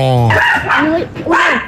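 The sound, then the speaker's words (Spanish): A dog's short, high-pitched bark and yelp ring out at a lively gathering with a band, the harmonic tone wavering and dropping over less than two seconds. “Madre mía, hasta el perro, hasta el perro está votando.”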